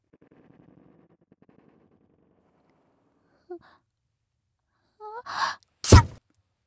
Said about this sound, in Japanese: お姉ちゃんうっかりくしゃみしちゃった